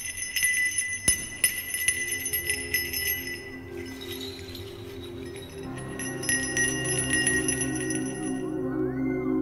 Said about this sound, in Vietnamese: Lão cầm lấy một cái chuông nhỏ rung lên, miệng lão rì rầm đọc khẩu quyết.